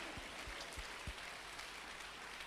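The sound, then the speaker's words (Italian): Faint applause from a church audience, a soft, steady patter of many hands clapping with a few low thuds under the wash. “teniamo a precisare che l'unico infallibile è il Signore Gesù Cristo, che vogliamo applaudire.”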